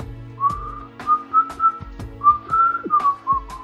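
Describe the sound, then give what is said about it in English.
Someone whistles the tune Rule Britannia during a fight scene in a spy film, a clear melody of held and stepping notes over a faint low background. “he kills him by whistling Rule Britannia”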